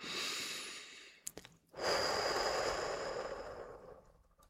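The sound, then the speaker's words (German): Deep breathing for a relaxation exercise: a deep breath in, then a brief pause, then a longer, slower, airy breath out that gradually tapers off. “Und atme tief ein und langsam wieder aus.”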